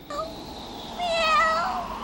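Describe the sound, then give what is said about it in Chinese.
A cheeky stray cat meows in a drawn-out, wavering cry that swells louder and higher in its second half before tapering off. “好厚脸皮的猫。 我家不能够养猫啊”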